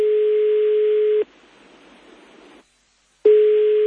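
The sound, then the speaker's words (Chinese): A steady mid-pitched telephone tone sounds for an incoming call, then breaks off into soft hiss and brief silence before the same continuous tone resumes. “sorry， 等先，有电话入等先。”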